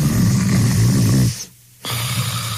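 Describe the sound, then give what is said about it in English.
A person snoring while asleep at night: a long, loud, low rumbling snore, a short quiet pause, then another deep snore starting up. “This is the sound of one of our customers sleeping soundly at night.”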